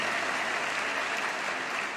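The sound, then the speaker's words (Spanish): An audience applauding joyfully during a church sermon, with many hands clapping in a steady, even roar that does not let up. “Y a ese Dios le aplaudimos con alegría de corazón.”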